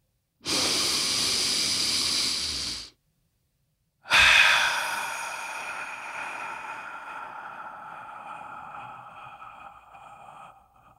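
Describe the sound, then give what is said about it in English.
Deep breathing: two long breath sounds, the first a steady rush lasting about two seconds, then after a short silence a second that starts strong and slowly fades over several seconds. “So if you are ready, let's take a deep breath.”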